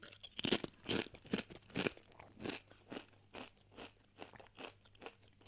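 Crunching Doritos Cool Ranch tortilla chips: many crisp crunches in a steady chewing rhythm, fairly faint and with no talk over them.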